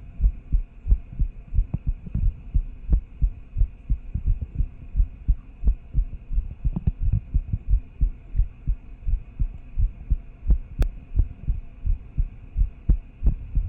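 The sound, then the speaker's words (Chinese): A steady heartbeat thumping in a regular, fairly fast rhythm of low, muffled double beats over a faint continuous hum, with no talking. “心跳本来就偏快”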